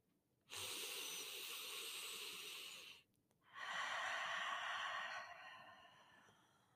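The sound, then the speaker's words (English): Two long, deep breaths follow each other: a sustained airy rush of about two and a half seconds, a short pause, then a second long breath that tapers off softly, with no talk. “You are welcome to take a couple of deep breaths with me”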